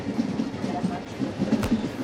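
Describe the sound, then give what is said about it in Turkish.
A train travels on rails through African countryside, a steady low rumble with faint rhythmic clatter of the wheels running throughout. “harika Afrika manzaralarıyla tren yolculuğu devam ediyor.”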